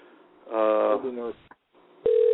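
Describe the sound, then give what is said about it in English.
A telephone number is dialed: a voice is heard first, then a short silence, and then a steady telephone tone comes on the line. “We are dialing his number.”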